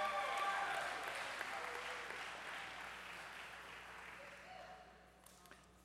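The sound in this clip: An audience applauds for children. The clapping is sustained and faint, with some voices mixed in, and it slowly thins toward the end.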